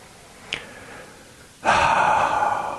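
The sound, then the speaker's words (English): A big, audible breath begins with a brief, soft sound. A long, loud airy rush then swells suddenly and holds, breathy and unvoiced, to the end. “Big breath.”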